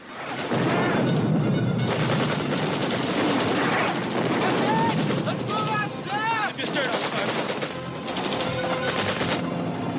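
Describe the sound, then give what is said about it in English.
Gunfire and a helicopter in a Vietnam War film scene as a chopper banks into a quarry and U.S. soldiers fire on Vietnamese troops: dense, continuous bursts of rapid shots over a loud, steady roar, with a few shouted voices. “The chopper banks in a quarry. U.S. soldiers fire on Vietnamese troops.”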